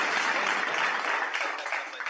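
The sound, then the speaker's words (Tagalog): An audience applauds the National Aviation Academy of the Philippines staff and employees, with dense, steady clapping throughout that thins and fades toward the end. “Palakpakan natin po sila, mga kaibigan.”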